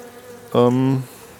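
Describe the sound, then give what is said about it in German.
A brief buzz of a gentle honey bee at the hive during a spring inspection of brood combs, one low droning hum lasting about half a second over a quiet background. “emsige Bienen, die da alles versorgen, sanftmütig, keine hat mich gestochen, auch da nicht.”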